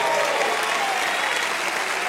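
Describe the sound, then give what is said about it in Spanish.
A church audience applauding during a sermon: a thick, continuous roar of many hands clapping, steady in loudness from start to finish. “Alguien déle un aplauso al Señor.”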